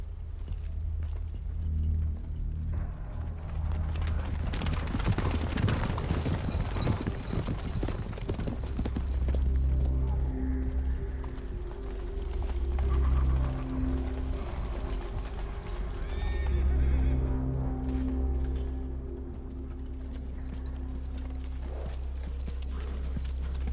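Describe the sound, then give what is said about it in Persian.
Horses setting off: many steady clip-clopping hoofbeats, a few whinnies and some rattling of gear, all continuing without voices. “سوار اسباتون بشین. همین الان حرکت میکنیم.”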